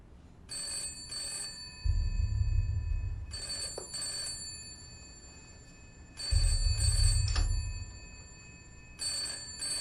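A telephone rings in regularly spaced, repeating bursts, bright and trilling, with quieter gaps between them and a low hum underneath. No one speaks.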